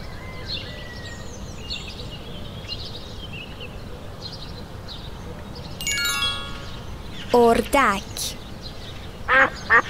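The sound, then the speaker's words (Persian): Duck quacking: a few nasal, buzzy quacks in short bursts late on, standing out over a low, steady background hiss. “اردک، اسب،”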